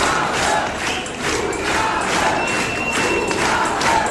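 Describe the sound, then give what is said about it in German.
A concert crowd at a show of Kölsch songs, pop and rock roars and chants for an encore: a loud, continuous mass of shouting voices with a loose pulsing rhythm. “Da wird Zugabe gebrüllt.”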